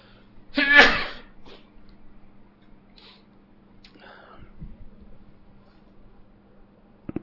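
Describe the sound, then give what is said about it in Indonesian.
A single loud, sharp sneeze bursts out near the start, followed by quieter breathy sounds and faint vocal murmurs. “ini udah lebih dari 3 kali. Kata Nabi SAW kalau lebih dari 3 kali ini bukan bersin.”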